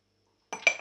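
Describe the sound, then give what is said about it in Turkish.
A spoon clinks against a bowl while stirring spiced yogurt: two short, bright metallic clinks come close together after a moment of silence. “Biraz daha karıştırıyorum.”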